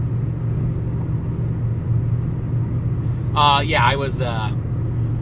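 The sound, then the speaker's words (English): Steady low road rumble fills a car cabin on the drive home from Coburg, Oregon, constant and even throughout, with a short stretch of voice partway through. “I was doing Coburg days in Coburg, Oregon. Now I'm driving home.”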